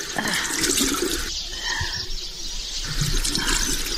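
Water splashes and rushes in a continuous, fairly loud wash as a mother washes her child's tear-stained face.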